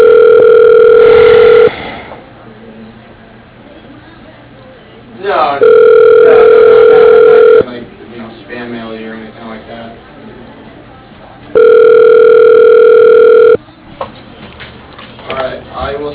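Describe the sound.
Telephone tones sound while dialing through an office's automated phone menu: three long, steady tones of about two seconds each, separated by quieter muffled voices, all with a narrow, phone-line quality.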